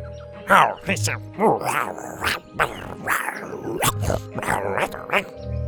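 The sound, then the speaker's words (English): A voice imitating monkey jungle speech, addressed to a jaguar: a run of short, throaty hoots and grunting calls with shifting pitch, delivered in quick uneven bursts. “in the universal jungle speech the monkeys had taught her, she said,”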